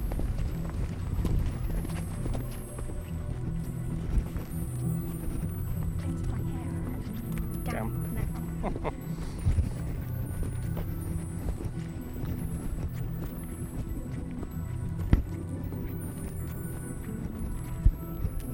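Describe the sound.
Footsteps on a walk outdoors in foggy countryside, with irregular steps over a low steady background rumble and two sharp clicks near the end.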